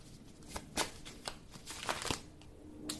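Playing cards being shuffled and drawn, heard as a few crisp snaps and light papery rustles spaced across the moment, fairly faint.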